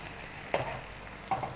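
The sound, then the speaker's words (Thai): Egg white fries in a pan with a stir-fried mixture, giving a steady soft sizzle broken by three short scraping knocks as a spatula pushes the food. “เราจะทำแบบลักษณะให้ส่วนผสมเนี่ยติดอยู่กับไข่ขาวนะคะแล้วก็พยายามเขี่ยให้ส่วนของไข่ขาวเนี่ยอยู่ด้านข้างก่อนนะจนไข่ขาวใกล้สุก”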